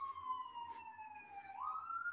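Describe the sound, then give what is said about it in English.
A wailing siren drawn out in one long tone that slowly sinks and then climbs again toward the end, faint but steady over a low hum. “Do you do anything? The sirens are horrifying. The sirens are scary.”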